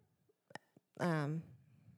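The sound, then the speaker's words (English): A cat meows in a studio: a single drawn-out, tonal meow of about half a second, preceded by a few faint clicks and followed by quiet background. “there's a cat in the studio, and she, too, wants a microphone”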